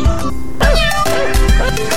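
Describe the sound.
A cat meows a few times in short, curving, tonal calls over a steady background tone, moderately loud.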